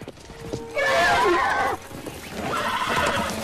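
A horse whinnies twice: first a loud, high, shaky neigh lasting about a second, then after a brief pause a second, broader and slightly quieter whinny that trails off.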